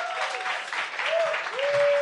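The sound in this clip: An audience at a comedy show applauds at the end of the show with dense, steady clapping that holds at an even level throughout.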